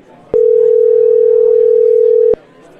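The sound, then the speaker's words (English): A telephone line tone: one loud, steady electronic beep holding for about two seconds, starting and stopping abruptly over faint background hiss. “Maybe it's just making our phone ring there in the background.”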